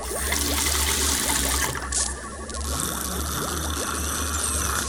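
Water being poured: a steady, continuous trickling splash that runs for about five seconds with one brief dip in level partway through, heard alone with no voices.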